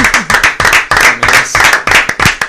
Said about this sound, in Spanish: Efectivamente, también ahí aplaudieron. Sí, sí, sí. Aplaudimos ahí.